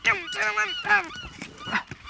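Seagull calls ring out as several loud, harsh, honking squawks with a strong nasal tone, coming in separate bursts one after another.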